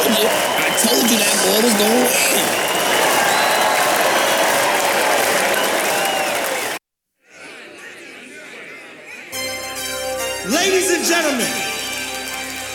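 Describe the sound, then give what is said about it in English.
Loud, dense applause and cheering from the audience for a rap battle contestant, sustained for several seconds before cutting off abruptly, followed by quieter mixed sounds and talk. “Put your hands together for Bars!”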